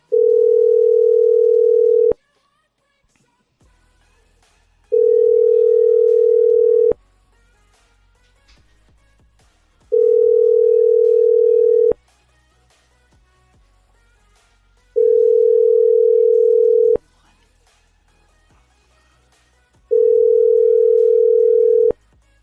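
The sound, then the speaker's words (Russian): A telephone ringback tone sounds while a number is dialed: five steady, low, loud beeps, each lasting about two seconds, separated by roughly three-second gaps of near silence. “Набираю.”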